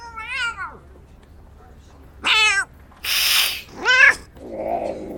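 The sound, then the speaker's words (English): A cat meows three times, each a short, high, rising-then-falling cry, separated by gaps, with a harsh noisy burst between the second and third meows. “Whose cat is that? I think he's yours. I think your dad got him.”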